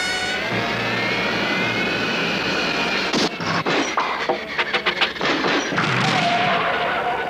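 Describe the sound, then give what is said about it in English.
An airplane roars down a runway for takeoff with a loud, steady jet rush and whining engine tones. After a few seconds, a run of irregular thumps and thuds breaks in. “Flight 208, you are clear for takeoff on runway 7.”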